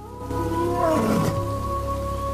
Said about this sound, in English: A lion shakes out his mane, then calls out.